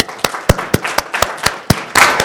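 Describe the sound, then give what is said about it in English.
Audience applause for a speaker's introduction, heard as a run of sharp, evenly spaced claps that ends in a brief denser burst of clapping. “Please give a big round of applause for David Alemian.”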